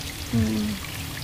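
Spring water in the Cikapundung area flows steadily, a soft continuous wash that stays at an even level, with a brief low tone rising above it partway through.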